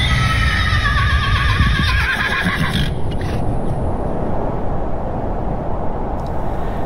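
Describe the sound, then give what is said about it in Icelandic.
A horse whinnies loudly for about three seconds over a constant low rumbling background, among horse-drawn carriages moving through the winter cold. “var fáir hestvagnar á ferð”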